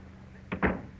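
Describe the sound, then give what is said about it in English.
A door to an adjoining office is closed quietly, giving two soft, muffled knocks in quick succession over a faint steady hum. “Through that door there, in the next office. Kindly close the door quietly behind.”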